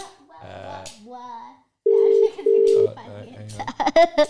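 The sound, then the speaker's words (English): A telephone number is dialed on a keypad, heard as two sustained, steady touch-tone beeps with a short gap between them, while voices talk before and after. “So I'm going to call Parmax and see if he knows.”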